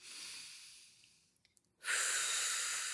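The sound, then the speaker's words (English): A deep inhale during a guided meditation, heard as a soft, steady airy hiss that starts abruptly and holds. A fainter fading breath and a few tiny clicks come before it. “We can start this meditation by just taking a couple of deep breaths and just inhale”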